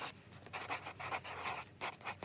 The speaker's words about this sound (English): Let me write that down.